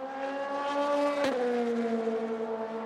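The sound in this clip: A blue LMP2 prototype race car engine drones through the final corner during qualifying at Laguna Seca, a steady harmonic whine that dips slightly in pitch midway, broken by one brief sharp click. No voices.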